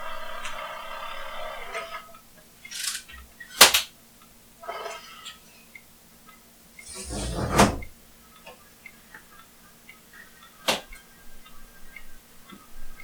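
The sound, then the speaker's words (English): A window is closed, heard as a few separate clunks and knocks spread over several seconds, with quieter rustling and handling noises between them and no voices. “to reduce noise from outside by closing the window.”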